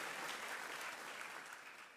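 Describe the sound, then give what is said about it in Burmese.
A church audience claps its hands in praise during a sermon. The clapping is faint and dense, lasting about two seconds at an even level. “လက်ခုပ်တီးလက်ဖခင်ကိုချီးမွမ်းရအောင်။”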